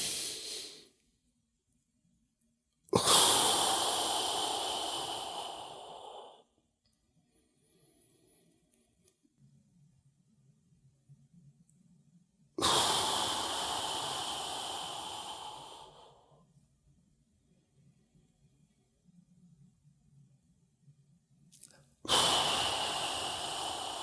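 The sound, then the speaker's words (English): Breath is blown out around the tongue, its tip held against the ridge behind the upper front teeth in a yogic position. Three long, loud, hissing exhalations, each several seconds long, are separated by near-silent pauses. “touching the tip of your tongue to the ridge of tissue behind your upper front teeth, like that. So you blow air out around it. So it looks like this.”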